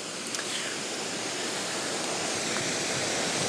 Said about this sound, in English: So I'm looking back now towards the first mill, the original mill built in 1771, and the water is coming from under it.